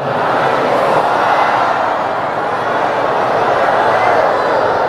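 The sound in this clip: An audience answers the Islamic greeting in unison at a religious gathering: a loud, steady wash of many voices speaking together, sustained evenly from start to finish.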